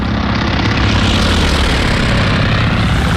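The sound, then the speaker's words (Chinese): Loud, steady engine roar of Japanese military aircraft flying back from an attack on Midway, a dense, unbroken drone that holds level throughout. “日军飞机在首次袭击中途岛后返航了，他们在寻找自己的航母。”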